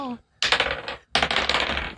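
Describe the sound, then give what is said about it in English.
Dice rattle and clatter across a table as players roll for initiative in a tabletop game. A voice briefly sounds first, then two bursts of rapid clicking rolls follow, separated by a short pause. “So, buckle up. Everyone, roll initiative.”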